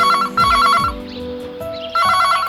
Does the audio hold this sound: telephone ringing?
yes